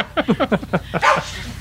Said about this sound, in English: Oh, see? That's the bark from the other room.